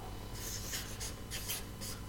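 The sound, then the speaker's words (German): Handwriting: a pen scratches in a series of short, rhythmic strokes, soft and dry, with brief pauses between the scribbles. “Ich schreibe es ein bisschen anders auf als mein Zorn ist entbrannt.”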